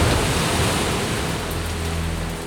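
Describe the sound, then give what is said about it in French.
Heavy raindrops drum on the roof of an ark in a dense, loud, continuous hiss-like roar that holds steady throughout with no voices. “De grosses gouttes de pluie tambourinent sur le toit de l'arche.”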